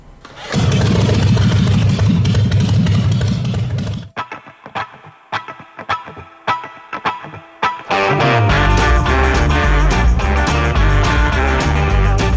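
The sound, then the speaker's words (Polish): A motorcycle engine starts: a stretch of sharp, uneven cranking bursts leads into the engine catching, then a steady, loud, low rumbling idle. “Co zrobić? Może odpalić motor?”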